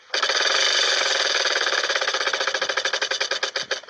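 A spinning prize wheel in a game ratchets out a fast, dense run of loud clicks that gradually slows into separate, widening ticks near the end, with no talk over it.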